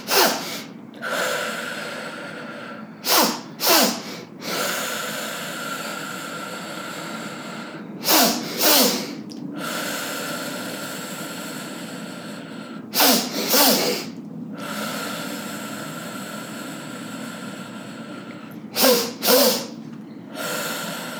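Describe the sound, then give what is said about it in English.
A person does breathwork, taking two hard, fast inhales through the nose and then a long, hissing exhale. The sharp double sniffs come in four pairs, each followed by the drawn-out breath out. “So it's going to be a hard, fast inhale two times through the nose and then a longer exhale, and just take your time with it.”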